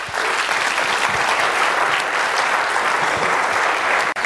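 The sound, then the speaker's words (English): A Lake City audience applauds to welcome a speaker to the stage. The clapping is dense and steady and holds at an even loudness throughout, then cuts off abruptly at the very end. “And let's give Rob a nice warm Lake City welcome.”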